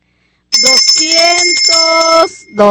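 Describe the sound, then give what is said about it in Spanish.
Hand bell rung at a religious gathering to thank a donor: bright, sustained ringing tones that last about two seconds, then a brief second burst of ringing. “vamos a agarrar la campana”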